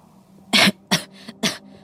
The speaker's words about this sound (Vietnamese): Thằng Thảo ho 3 tiếng, rồi nói trong khó nhọc